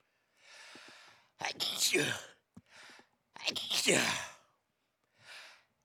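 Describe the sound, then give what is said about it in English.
A person sneezes twice: breathy, gasping inhales lead into two loud, harsh, voiced bursts, and a faint breath follows at the end. “Oh, I'm about to sneeze.”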